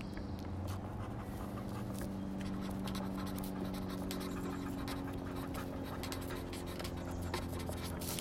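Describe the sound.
Handwriting on paper, with a pen or pencil scratching steadily and continuously at a low level over a constant low hum, with no talking.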